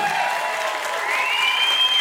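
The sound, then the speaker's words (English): An audience at a live comedy show at Largo applauds as a guest is welcomed on stage, a dense, steady wash of clapping lasting about two seconds. “Let's have a hand for Senor Abuelito. And while we're at it, let's welcome Mr. Jonah Ray.”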